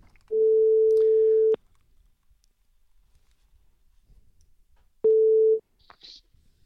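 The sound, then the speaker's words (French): A telephone ringback tone on an outgoing call gives two steady single-pitch beeps: a long one, a gap of silence, then a shorter one cut off, followed by a couple of faint clicks. “On l'appelle tout de suite. On l'appelle. Parce que ça va sonner.”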